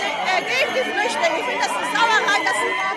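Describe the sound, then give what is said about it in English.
Crowd of demonstrators outside Berlin's refugee reception centre, a dense babble of many overlapping voices chattering and calling at a steady, fairly loud level throughout. “Outside Berlin's refugee reception centre, a demonstration's underway.”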